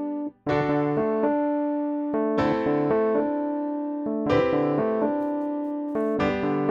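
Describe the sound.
Four ringing chords over a held low D pedal bass, moving D, A minor over D, C major 7 over D, then G over D, struck about every two seconds with lighter notes in between.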